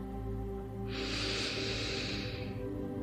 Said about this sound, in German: Und wir machen das wie immer, indem wir drei ganz tiefe Atemzüge nehmen.